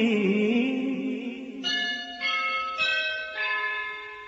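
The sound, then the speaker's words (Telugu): A school's first bell ringing, a few clear metallic strikes, each bright tone sounding out and then slowly decaying, following an opening lower ringing tone. “ఎల్బోవి స్కూల్లో మొదటి గంటే మోగింది.”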